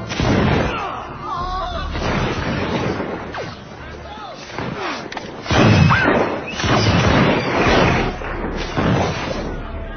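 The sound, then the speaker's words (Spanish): Gunfire as guards fire on a crowd of Madrid townspeople: repeated booming bursts and thuds over a background of shouting voices. “Los guardias están decididos a hacer fuego. Los madrileños avanzando. Finalmente, el oficial da la orden fatídica. ¡Fuego!”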